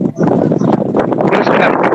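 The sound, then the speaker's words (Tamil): Wind blows outdoors across a caller's phone microphone, a loud gusting rush that rises and dips unevenly through the whole clip. “Krishnan அவர்கள் வெளியே நிற்கின்றீர்கள் போல் தெரிகின்றது, காற்று வீசிக் கொண்டிருக்கின்றது”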